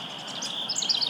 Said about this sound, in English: and a wren just went into it. Yeah. And out of it. And he's starting to sing right from the top of it.